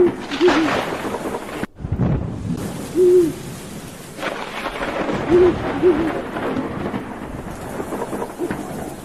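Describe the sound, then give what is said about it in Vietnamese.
A stray owl hoots in the rain during a thunderstorm over deep mountain forest. A few short, low hoots sound over steady rainfall and rumbling thunder, with a brief sharp dropout early on. “Đằng xa xa có tiếng con chim cú bay lạc bầy trốn mưa, kêu lên làm cho người ta rợn cả người.”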